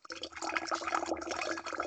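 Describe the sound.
Liquid is poured to fill a container, a steady splashing stream that runs for about two seconds without a break.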